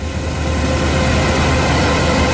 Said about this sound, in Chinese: 走进山西大同市云冈区西韩岭乡泰善村，收割机正开足马力作业